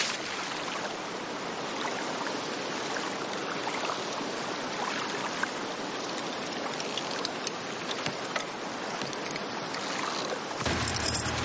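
Splashing water as a diver swims through the sea toward a boat, a dense, steady wash of sloshing with scattered sharper splashes, shifting in character just before the end.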